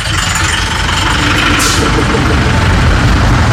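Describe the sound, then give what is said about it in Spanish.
Heavy engine rumble from closed buses trying to pass on a road, a steady, loud, low drone that holds without a break for the whole stretch. “Pásale, estos colectivos cerrados están queriendo pasar.”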